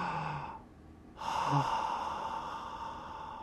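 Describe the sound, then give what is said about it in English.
A slow deep breath taken as a calming exercise: a faint breathy start, a short pause, then a long, loud, airy exhale that fades gradually over a couple of seconds. “remember all the deep breath stuff? We haven't done that in a while. Can we do it together?”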